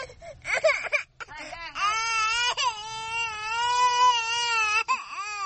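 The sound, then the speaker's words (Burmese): A young child cries loudly while being pulled along by the mother, with high wailing sobs broken by short gasps and then a long, sustained cry. “ငိုနေတဲ့ကလေးငယ်ကိုသူ့အမေကအတင်းဆွဲခေါ်နေပါတယ်။”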